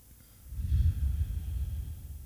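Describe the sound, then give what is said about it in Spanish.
A single slow, deep breath taken during a guided breathing and relaxation exercise. It is a soft, airy rush that swells and then gradually eases off, faint and alone with no talking. “Y respiro.”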